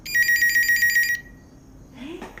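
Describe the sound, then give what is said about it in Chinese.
A phone rings during a call to a father that goes unanswered: a bright, rapid electronic trill lasts about a second and cuts off, followed by faint low noise and a brief rising sound at the end. “要不再给你爸打个电话？ 我都打6遍了，他都不接。”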